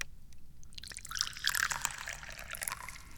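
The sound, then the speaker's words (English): Tea poured into a cup: a soft, continuous liquid trickle that swells slightly in the middle and then settles, faint and steady, with no voices. “Let's pour some tea.”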